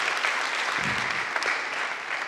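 Audience applause greets a guest pastor at an Advent church service, dense, even clapping that fills the whole stretch at a steady level with no break and no talk.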